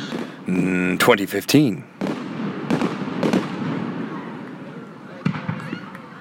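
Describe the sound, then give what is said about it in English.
Fireworks go off in a few sharp bangs and crackling bursts, the loudest cluster early, followed by fainter pops, with voices murmuring in the background. “Went to see some fireworks today.”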